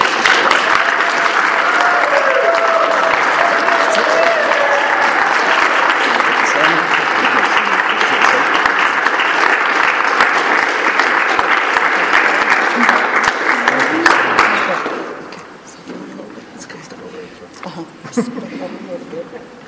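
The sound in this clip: Applause fills a hall as an audience welcomes the winner of the 2016 Abraham Lilienfeld Teaching Award. Steady, sustained clapping lasts about fifteen seconds, then dies away quickly, leaving a much quieter stretch with a few faint sounds.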